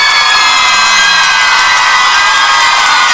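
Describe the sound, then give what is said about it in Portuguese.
A crowd at a live event cheers and shouts loudly and continuously, a dense roar of whoops and yells that stays at full volume throughout. “palmas pro João Caeiro Capatá. Valeu, galera.”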